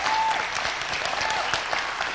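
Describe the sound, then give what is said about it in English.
Audience applause for a graduating student after an interview, many hands clapping in a steady, even wash that stays at a constant level. “everybody want to maybe give her a hand clap for doing an interview.”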